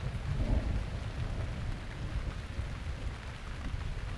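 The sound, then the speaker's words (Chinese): Steady rain falls in a dense, even hiss with a low rumbling undertone, continuous throughout with no voices. “最近天气还是有点不好，既然下雨了”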